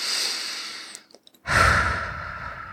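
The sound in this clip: A deep breath drawn in: a loud, breathy rush of air starting after a brief quiet gap and slowly tapering off.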